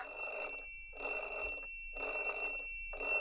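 A timer alarm goes off when three minutes are up, ringing in bell-like bursts about a second long with short gaps between. Four bursts can be heard, the last one cut off. The ringing is fairly faint and stands alone.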